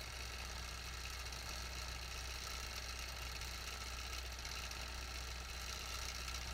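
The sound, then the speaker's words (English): A quilting machine motor runs at 35% on a My Stitch preset while stitching a small feather fill. The whirring drone stays steady and fairly quiet throughout, with no breaks or changes in speed. “I just press the My Stitch preset, and now I'm at 35% motor for a nice small fill.”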